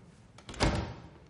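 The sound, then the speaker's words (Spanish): A door being closed: a single soft, muffled thud rises briefly out of a faint low background hum. “Ella se marcha y él cierra la puerta.”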